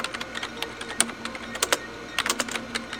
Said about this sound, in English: Type in Andromeda Radio Wave Study.